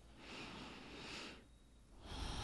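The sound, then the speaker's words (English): A slow, deep breath sounds as two long, soft, airy rushes separated by a short quiet pause. The breathing is faint and unaccompanied by talk. “Take a deep breath.”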